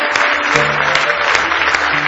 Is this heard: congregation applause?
yes